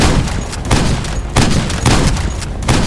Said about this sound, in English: he pressed the gun to her temple and fired. The blast forced her back